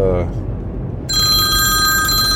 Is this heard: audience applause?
no